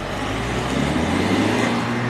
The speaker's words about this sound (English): That's a diesel four cylinder. Quite impressive.